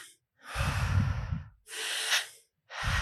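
Deep, forceful breaths are drawn and released during a breathwork exercise. Loud, rushing airflow comes in long cycles with brief silent gaps between them, and no talk.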